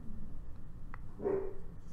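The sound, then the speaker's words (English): A dog gives a single short, muffled bark, faint over a low steady background hum. “There's the dog again!”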